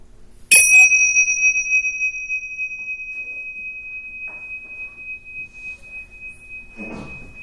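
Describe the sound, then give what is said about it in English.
A single strike of a bell rung to close a guided meditation, with a bright metallic attack and clear high ringing tones that hang and slowly fade over several seconds. “And when I ring the bell, follow the vibration and let the vibration and sound bring you back into the room.”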